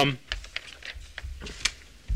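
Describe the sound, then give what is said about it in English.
Paper pages shuffled by hand to find a place in a reading text: a few soft, crisp rustles and flicks spaced irregularly, fairly faint. “I shuffle my pages to find my reading text in.”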